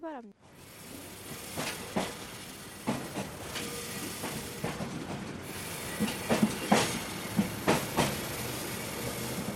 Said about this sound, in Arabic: ها هو القطار قادم بعرباته الثلاثة الصفراء ذات الشكل الأنيق.